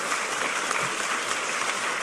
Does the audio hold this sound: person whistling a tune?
no